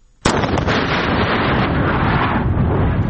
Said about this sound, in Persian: حاجی محمد ماین تازه کشف شده در شاهرای ارزگان کندهار را منفجر ساخت.